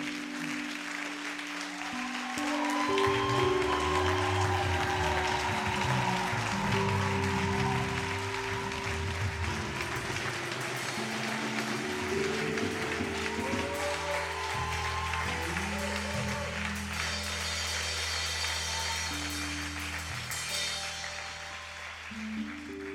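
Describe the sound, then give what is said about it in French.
A French-speaking church audience applauds to acclaim God in a long, sustained round of clapping. Steady music with low sustained tones plays underneath for the whole stretch. “est-ce que déjà on peut dire merci à Dieu en acclamant le Seigneur”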